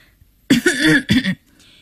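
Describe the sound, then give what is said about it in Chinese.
An elderly woman coughs in two short, throaty bursts with a rough, throat-clearing quality. No one else is heard. “姑奶奶出现在门口，咳嗽了一下。”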